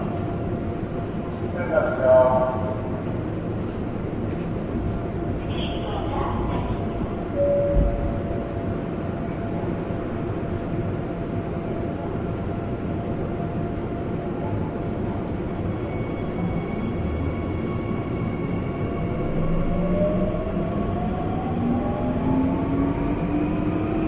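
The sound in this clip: An Incheon subway train runs with a steady, loud rumble, a voice briefly heard over it, and a motor whine that rises in pitch as it speeds up.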